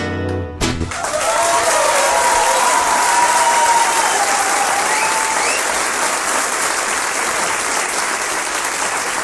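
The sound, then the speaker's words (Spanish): Audience applause after a tango song: loud, dense clapping from a crowd breaks out abruptly and holds steady for several seconds without letting up. “Todo tema con aplauso, ¿vio?”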